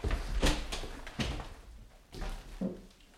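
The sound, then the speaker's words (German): A door being opened during a tense search, heard as a few dull clunks and rattles over a low rumble, with no voices. “Na los, mach die Tür auf.”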